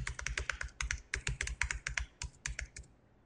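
Rapid clatter of a computer keyboard as a web address is typed: many quick, crisp keystrokes in uneven bursts with brief pauses, stopping shortly before the end.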